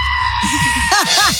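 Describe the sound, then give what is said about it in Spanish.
A goat bleating in a few quavering, nasal cries, with the last two louder and higher-pitched, over a steady background hum. “Es un chivo. Oh, un chivo.”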